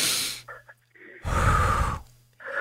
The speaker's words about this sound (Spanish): Yo nada más que quiero que respires profundamente. Respira.